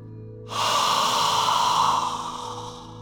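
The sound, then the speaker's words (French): A voiceless, breathy 'ah' is exhaled through the mouth during a meditation exercise: one long, loud, airy hiss that begins abruptly after a short silence, holds steady, then fades away. “vous expirerez l'air par la bouche en faisant un A soufflé, c'est-à-dire sans vos cordes vocales. Comme ceci.”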